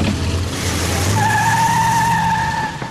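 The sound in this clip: A car drives away with its tires squealing: a loud, steady whine starts partway through and holds over a constant roar of engine and road noise.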